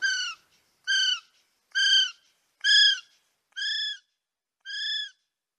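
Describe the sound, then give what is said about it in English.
A recorded kiwi call played in a Northland forest at night gives six shrill, harmonic whistles at an even pace, each about half a second long, alone against silence. “Despite Craig's best efforts, even playing a recording of a Kiwi call to try and get a response”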